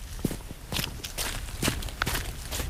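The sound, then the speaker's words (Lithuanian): Footsteps walking down a path from an oak-covered hill toward a homestead in a Lithuanian river valley: a steady series of crisp, evenly paced steps, moderately loud and alone. “taku žingsniuoju žemynį Dūkštos slėnį įsikūrusią sodybą”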